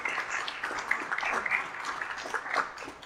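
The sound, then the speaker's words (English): Church audience applauding after children showed a video, a lively patter of many hands clapping that rises and dips slightly in loudness throughout. “so I appreciate the applause”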